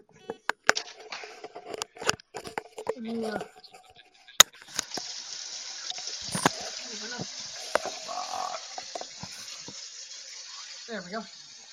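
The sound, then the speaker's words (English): Water running from a tap into a pan in the sink, a steady rushing hiss that starts partway through after some clattering and continues to the end, with a voice speaking at times. “I'm going to put the pan on the right side of the sink and put water in it.”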